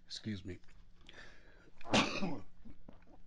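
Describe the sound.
A single cough from a person at a microphone who missed the cough button: a sharp, loud, rough burst near the middle, set among softer throat and breath noises.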